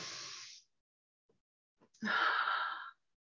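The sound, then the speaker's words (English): A group takes a deep breath together: a soft, breathy inhale fades out, a short silence follows, and then comes a louder, longer hissing exhale. “would everybody just like to take a deep breath with me first? Oh, yes. Let's do that. Let's do that.”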